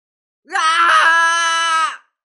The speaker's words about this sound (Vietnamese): điên cuồng hét to một tiếng